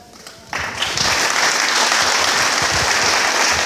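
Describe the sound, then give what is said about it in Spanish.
Applause from an audience at a community event on peace-building work starts abruptly after a quiet half second, then continues as a loud, steady wash of clapping to the end. “Fuerte el aplauso que se escuche para doctor Miguel Sánchez”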